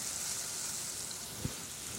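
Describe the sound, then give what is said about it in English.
Garlic sizzles in a frying pan as it is stirred: a steady, bright, crackling hiss runs throughout, broken once by a brief low knock partway through. “All right, my garlic is squished in. And now we have to stir it. We don't have to stir it constantly, but give it a good sort of swish around.”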